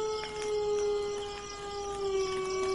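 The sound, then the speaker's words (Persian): Wolves howl at night in a long, sustained tone that sags slightly in pitch, faint and drawn out over nearly three seconds. “چی شده؟ چرا گرگا اینطوری دارن زوزه می کشن؟”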